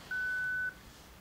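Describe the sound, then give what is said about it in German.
An answering machine sounds one steady, fairly high-pitched electronic beep lasting about half a second, clear above a faint background hiss. “Sie können mir nach dem Signalton eine Nachricht hinterlassen.”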